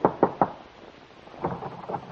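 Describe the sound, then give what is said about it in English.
Knocking on an apartment door: three quick, firm raps, then a short pause and a further run of softer, quieter taps. No voices. “Your hand trembles as you knock on the door.”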